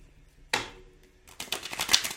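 Tarot cards being shuffled by hand: one sharp snap, a short pause, then a quick riffling burst of papery flicks, fairly faint overall.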